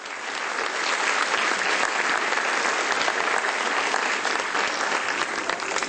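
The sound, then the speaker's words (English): A large audience applauds to welcome a spiritual teacher and author onto a stage, a dense, continuous wash of clapping that swells in at the start and then holds strong and even for several seconds. “Let's welcome Supreme Master Ching Hai with a round of applause.”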